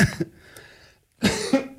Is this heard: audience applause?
no